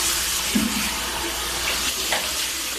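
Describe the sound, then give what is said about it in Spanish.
Water running steadily from a sink tap as a detained drug trafficker washes his face and hair, a continuous hiss with a few faint splashes breaking through. “Ahora, las imágenes muestran al narcotraficante lavando su rostro y su cabello en un lavabo”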